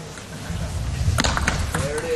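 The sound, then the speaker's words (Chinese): A few sharp table tennis clicks of a racket brushing the ball to put left sidespin on it during a match, short and crisp under ongoing commentary voices. “又换了一种侧旋，嗯，刚刚也是球拍勾起来啊，摩擦了左侧旋。”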